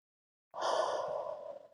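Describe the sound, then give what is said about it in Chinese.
A single long, deep abdominal inhale during a guided breathing exercise: a soft, airy breath drawn in steadily for just over a second, heard alone after silence. “然后做几次深长的腹式呼吸，吸气，”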